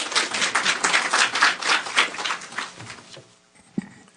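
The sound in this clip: Audience applause welcoming a guest speaker at an event: dense clapping for about three seconds that thins out and fades, ending with a single soft thump.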